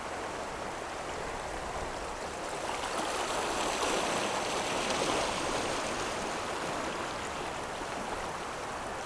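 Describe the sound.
Rushing water of a powerful tidal maelstrom, a dense, steady roar of churning, hissing water that holds an even level throughout with no pauses and no voices.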